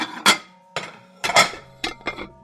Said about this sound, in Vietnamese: Đúng lúc này, bỗng có tiếng bát đĩa va vào nhau leng keng.